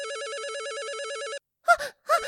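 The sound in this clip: An office telephone ringing with a steady, warbling electronic trill that lasts about a second and a half and then cuts off, followed by two short breathy vocal sounds.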